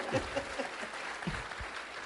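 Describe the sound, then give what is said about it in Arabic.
Audience applause fills the whole clip: a dense, steady patter of many hands clapping at an even, moderate loudness from start to finish. “اسالكم بالله لو انا وهي توش قلت كذا صفقوا لي الله يجزاكم خير”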